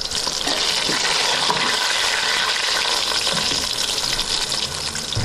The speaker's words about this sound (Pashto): په داسې وخت کې مرکه کړې چې مرخیری یې پخول